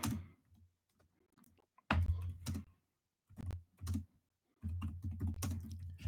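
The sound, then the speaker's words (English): Typing on a computer keyboard, with quiet, crisp keystroke clicks arriving in several short bursts separated by brief pauses, and no talking. “Actually, I'm going to type that too in the chat room.”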